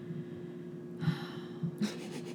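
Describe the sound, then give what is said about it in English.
A deep breath is drawn and released, heard as two short, faint, breathy rushes with no talk. “I'm just taking a very, yes, I'm taking a deep breath right now because it's a very hot topic.”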